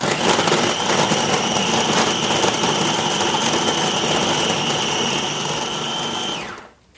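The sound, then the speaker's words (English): A food processor blends a blue cheese and roasted pecan dip, a loud, steady motor whir with a gritty, churning texture that runs for about six seconds before cutting off. “All right, I'm going to turn on the food processor. Here we go.”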